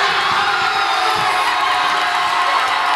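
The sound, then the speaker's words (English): Crowd cheering erupts at a packed Cape Verdean social club during a World Cup viewing party as the team scores its first-ever goal. Loud, dense whoops and shouting fill the whole stretch without a break. “That was the sound of jubilation at the packed Cape Verdean social club in the hollow section of Bridgeport as the country scored its first ever World Cup goal.”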